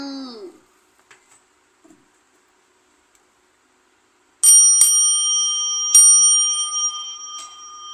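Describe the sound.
A bell rings in a few clear strikes during the second half, each giving a bright, high, sustained ringing tone with lingering overtones that slowly fade. The opening is mostly quiet, with only a few faint noises.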